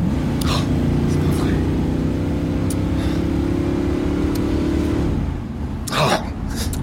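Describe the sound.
A car driving fast gives a steady, droning engine hum with clear tonal harmonics. The drone holds for about five seconds, then drops away near the end.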